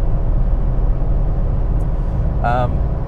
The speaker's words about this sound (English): Boy, people are driving fast today. I'm doing 80 and they're, people are hard to pass.